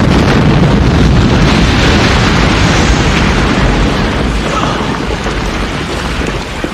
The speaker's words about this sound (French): Notre maison a explosé